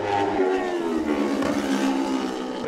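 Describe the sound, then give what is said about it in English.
A racing motorcycle engine roars past on the TT course at Glencrutchery Road, a loud, sustained, high-revving whine with a steady drone that holds for the whole clip. “coming on to Glen Crutchery Road on the MD Racing pattern, heading for TT race win number 33, Michael Dunlop.”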